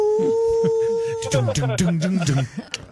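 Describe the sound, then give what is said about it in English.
A person imitates a wolf howl with a single steady, sustained vocal tone lasting over a second, followed by a burst of lively overlapping voices. “Let's all do a wolf howl. Who can do the best wolf howl?”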